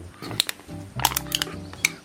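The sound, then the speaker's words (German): Sharp cracking snaps from pressing hard on a wooden instrument. A few crisp clicks are spread unevenly across two seconds over a quiet, low background. “Das ist ein Instrument aus Holz. Oh. Und da muss man ganz doll draufdrücken. Ah. Und dann kommt da ein Knack raus.”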